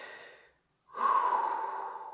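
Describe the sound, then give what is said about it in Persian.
A deep breath is drawn in during a belly-breathing exercise: a steady, breathy rush of air that follows a short silence and lasts over a second, with no talk. “حالا یه نفس عمیق بکش،”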